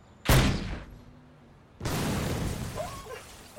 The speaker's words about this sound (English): Oh! Shit, you shot me!